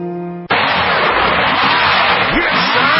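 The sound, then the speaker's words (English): A tow truck engine gives a loud, steady roar that holds for about three seconds, following a brief tone at the very start. “You hear that? That is the sound. No, that is the sound of the wrecker. That is the sound of the tow truck.”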